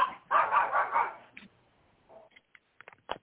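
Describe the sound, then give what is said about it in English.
Dogs barking: a quick run of loud barks at the start, followed by fainter short yips and scattered small sounds. “I hear dogs. I hear dogs. What dog is that? That's my dog.”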